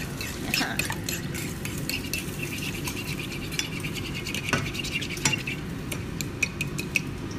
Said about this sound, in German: Ich schlag das Ei noch mal ein bisschen besser, weil das hast du nicht gut gemacht.